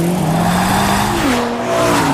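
A BMW M sports car engine revs hard, its loud, steady droning tone climbing in pitch and stepping up partway through.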